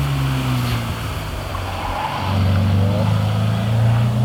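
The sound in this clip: A Porsche 356 car out in the countryside, its engine giving a low, steady hum that grows louder and lifts in pitch partway through.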